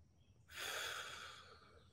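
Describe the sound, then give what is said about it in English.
A single quiet inhale through the nose during a breathing exercise: a soft, airy hiss that starts abruptly, holds for about a second, then tapers off. “You can just pause and breathe through your nose. And you can pause at the top of the breath.”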